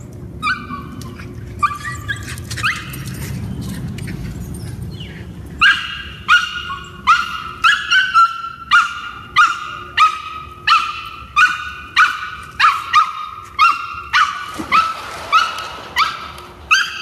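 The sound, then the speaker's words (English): A dog rescued from the streets barking in a long, steady run of many sharp, evenly spaced barks, after a quieter stretch of background noise at the start. “that's our dog Level. We adopted him, well, we really rescued him from the streets.”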